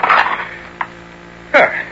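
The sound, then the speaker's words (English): An old jar of olives has its lid lifted off: a soft click, then a louder, ringing ceramic clink and scrape of the lid against the jar, alone and brief. “Now to lift the lid.”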